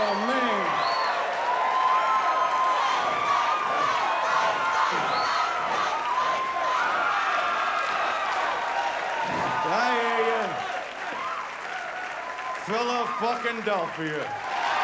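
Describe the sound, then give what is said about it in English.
A comedy special audience in Philadelphia gives a standing ovation. Dense, sustained clapping and cheering roar steadily throughout, with whoops and shouting voices rising above the crowd noise. “Okay, this is how he opens. Standing ovation. Standing ovation. Audience loves it.”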